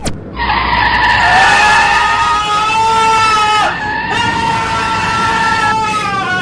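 A car skids with a long tire squeal while a passenger panics. The loud, sustained, high-pitched shriek wavers in pitch and runs nearly unbroken from start to end.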